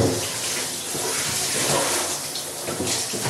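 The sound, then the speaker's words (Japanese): Running warm tap water while someone washes their hands: a steady, even splashing hiss that continues throughout without talking. “ちょっと一回手を洗います。よいしょ。あ、もう温かい、もう温かいわ。”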